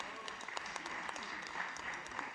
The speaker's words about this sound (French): on les applaudit